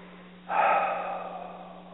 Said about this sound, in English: just take a deep breath and let it out like that, like you're laying down a burden at the end of the day